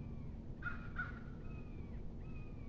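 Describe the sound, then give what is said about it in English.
Two hoarse crow caws in quick succession, fairly faint over a steady low background hiss, followed by quieter thin calls. “I don't know if you can hear the red-shouldered hawk calling. I'm sure you heard the crow.”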